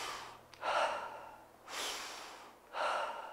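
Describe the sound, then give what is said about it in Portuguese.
Breaths drawn in through the nose to show proper nasal breathing: three long, loud, breathy rushes of air heard alone, each lasting most of a second, separated by short pauses. “Você tem que respirar pelo nariz, ó.”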